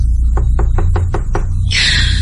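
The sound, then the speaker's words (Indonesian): Knocking on the door of the neighbouring room in a boarding house: six quick, evenly spaced raps over a steady low hum, followed by a short burst of hiss. “Kemudian aku mengetuk pintu teman kosanku yang tepat di sebelahku.”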